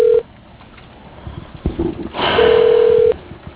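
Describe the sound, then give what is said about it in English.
Telephone ringback tone from a call going unanswered: a short steady mid-pitched tone at the very start, then one longer tone of under a second, with faint rustling and handling noise in between. “come on, answer the fucking phone.”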